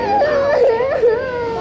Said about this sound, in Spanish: de audio en la que se escucha a niños llorando desesperadamente y rogándole a sus padres después de ser separados de ellos